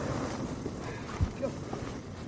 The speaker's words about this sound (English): Is it always windy up here?